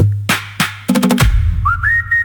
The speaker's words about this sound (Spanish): Silbemos, silbemos.